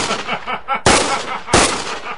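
Gunfire in an audio drama as gangsters shoot at a costumed hero: two loud, sharp gunshot blasts with ringing tails, the second following soon after the first.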